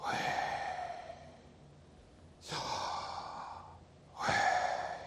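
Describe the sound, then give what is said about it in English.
Slow breathing in and out, three long airy breaths with soft hissing rushes of air, each swelling and then fading, heard alone with no talk. “to correctly pronounce this name, you essentially breathe. As you inhale, and as you exhale,”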